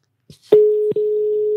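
Telephone tone on a call being placed: a short click, then a loud, steady single-pitched tone that breaks off for an instant and resumes at the same level until the end.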